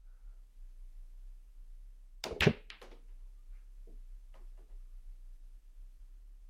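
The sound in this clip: A pool cue break shot scatters the balls: one sharp, loud crack, followed by a few fainter, scattered clicks as the balls knock apart and roll.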